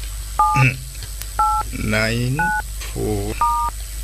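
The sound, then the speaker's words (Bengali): Telephone number being dialed, the keypad giving four short, bright touch-tone beeps at a steady pace, with a voice sounding between the tones. “আমি আমি এক্ষুনি বন্ধু নবকুমারকে ফোনটা করি”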